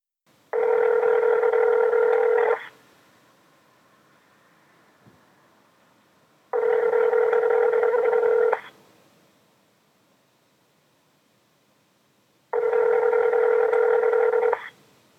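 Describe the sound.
A telephone line sounds while someone calls the police: three long, steady, buzzing tone bursts of about two seconds each, separated by even gaps of quiet line hiss, loud and regular.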